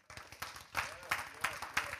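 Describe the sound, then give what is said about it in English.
A church audience claps their hands in worship, a faint but steady beat of unison claps at a brisk, even tempo, with a speaking voice mixed in. “It's a good place to clap your hands and give him glory.”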